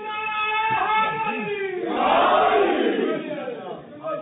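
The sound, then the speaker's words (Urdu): A crowd chants the religious slogan "Ali, Ali" in answer to a leader's call. One voice is heard first, then massed shouting swells loudly before tapering off. “ایک نعرہ ایسا لگائیں جیسا علی بلند ہے, علی علی”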